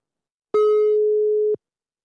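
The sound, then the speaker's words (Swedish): Telephone ringback tone on an outgoing call: one steady, mid-pitched electronic beep that holds for about a second and then cuts off, heard alone with silence before and after. “vi tänkte, eftersom det är sista avsnittet, att vi nu skulle ringa upp honom här och nu och höra vad han tycker.”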